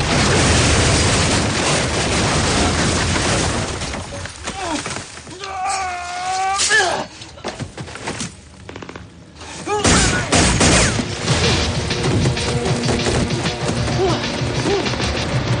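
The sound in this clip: Pistol gunfire in the 2011 action-fantasy film Sucker Punch, as a woman chases down soldiers in a battle scene: sharp shots and crashes within a loud, busy action soundtrack, with a quieter stretch mid-way before the din returns.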